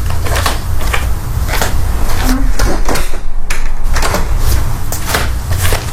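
A door is opened as a man in a raincoat comes into the room, giving a run of several sharp knocks and wooden clatters in an uneven rhythm over a steady low rumble.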